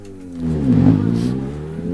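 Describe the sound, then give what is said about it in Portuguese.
Rally car engines roar on arrival at a stage in Santana, Madeira, a loud, steady mid-pitched drone that swells to a peak near the middle and then holds on. “continuam a chegar os pilotos com os seus carros nesta prova aqui em Santana”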